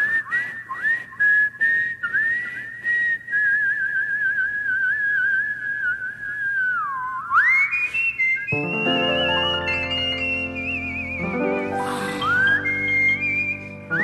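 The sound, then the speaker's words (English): A person whistles a tune in long, clear, high notes that bend and slide between pitches. Fuller, lower tones join underneath during the second half. “People don't realize you're really whistling.”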